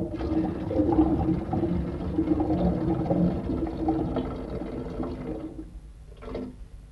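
A stream of water pours into a metal container used as a bottle, a steady rushing splash that runs for about five seconds and then cuts off, followed by one brief final splash.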